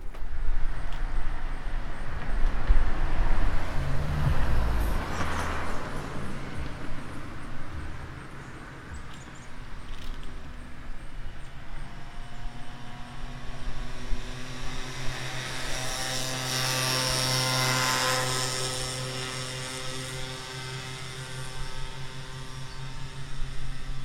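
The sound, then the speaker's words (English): Vehicles pass by outdoors with a steady engine rumble. A broad, droning roar carries a low tonal hum that grows stronger partway through and then eases slightly, with no voices. “I put an order in for those vehicles to go by.”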